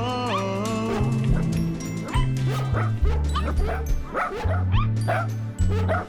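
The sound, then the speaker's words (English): A man imitates dog barks, with many short bark and yip sounds over a bright, tuneful musical backing. The sound stays loud throughout. “he could throw his voice and do different dog barks. Well, that's all the dogs.”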